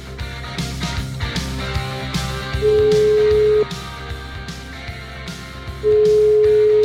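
Telephone ringback tones from an outgoing call: two long, steady, low-pitched tones about three seconds apart, each lasting around a second, sounding over a busy, continuous background.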